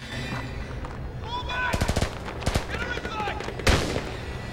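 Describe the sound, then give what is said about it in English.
Gunfire erupts as a man runs forward shooting beside a line of parked single-deck buses: several bursts of sharp, rapid shots crack out in quick clusters, closing with one heavier blast. “Suddenly, Patrick turns, spots Theo, and starts running towards him, shooting.”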